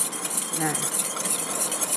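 Stirring an oil mixture while preparing a homemade cosmetic blend, a steady, continuous swishing and scraping that stays even throughout.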